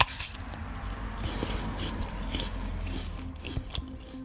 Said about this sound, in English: Every morning, I eat a pink lady apple. And usually, I remember to wash it before taking a big bite.